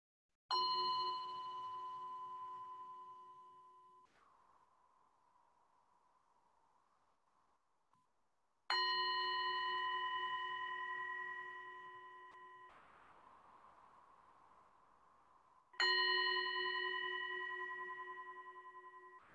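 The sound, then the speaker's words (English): Meditation bell struck three times to mark the stages of a mindfulness-of-breathing practice, each soft, clear ring sustaining and fading slowly before the next strike, heard alone and faint. “As we begin a period of the mindfulness of breathing with bells for the four stages,”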